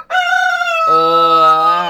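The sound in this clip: A rooster crows once, alone. The loud, bright, harmonic call steps down into a lower, drawn-out second part before it ends.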